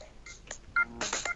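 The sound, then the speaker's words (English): Telephone tones dialed on a blue box: a quick sequence of a few short, pure electronic tone bursts at differing pitches, with a longer, louder tone cluster near the end. “I tried. Did 110 on my blue box. Dial.”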